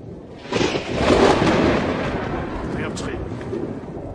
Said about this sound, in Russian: Начинается гроза.